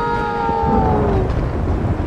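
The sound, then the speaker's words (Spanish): Howling hurricane wind over a sinking ship at sea: a short, loud burst of rushing noise with whistling tones that slide downward in pitch. “no recibieron otra respuesta que el silbido del rugiente huracán”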